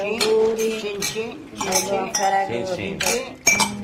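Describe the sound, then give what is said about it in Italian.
Wine glasses clink together in a Ferragosto toast among friends: a few bright, short chinks at irregular intervals, fairly faint. “Allora, in alto i calici alla nostra bella amicizia di Ferragosto.”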